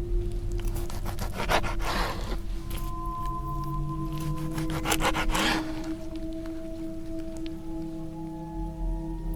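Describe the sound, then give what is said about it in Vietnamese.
A knife sawing and scraping through a tough piece of meat at night, with several rasping strokes over a continuous low hum and sustained tones. “Tiếng dao nó cứa vào thịt trong đêm nghe đến rợn cả người.”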